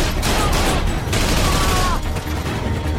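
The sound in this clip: Loud gunfire from a shootout inside a room, with armed men, including a machine gunner, firing back and forth: a dense, continuous roar of rapid shots with no break.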